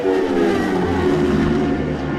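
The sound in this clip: Racing engines roar past on the Glen Crutchery Road of the mountain course during qualifying, a continuous loud, droning whine with layered tones that holds steady throughout.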